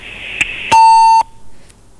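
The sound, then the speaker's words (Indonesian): A telephone line beep sounds after a caller hangs up: one loud, steady electronic tone lasting about half a second, preceded by a short click and a faint hiss, then quiet. “Ya, pendengar, teleponnya ditutup. Udah diangkat, tapi ditutup lagi ya.”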